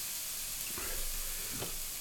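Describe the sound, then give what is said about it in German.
Eggplant slices fry in a pan, giving a soft, steady sizzling hiss that runs evenly through the whole stretch with no voices. “Ich blende mich nochmal aus, weil das wird jetzt hier ein bisschen öd, weil ich da mehrere Tranchen Auberginen noch zu braten habe.”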